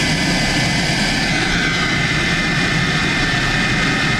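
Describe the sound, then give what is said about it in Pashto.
A private passenger plane arriving in Uruzgan province gives off a loud, unbroken engine roar: a dense, steady rushing drone with a faint high whine running through it. “دا د کامیر په نوم یوه خصوصي طیاره ده چې تر دریو کلونو وروسته اورسکان ولایت ته راغلي”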